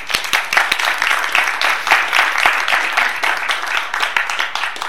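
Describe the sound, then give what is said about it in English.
Applause from an audience at a bookstore author reading and signing, welcoming the novelist to the store: many crisp, distinct hand claps overlapping in a lively, fairly loud and steady patter. “Please join me in giving a warm Tattered Cover welcome to Linda Fairstein.”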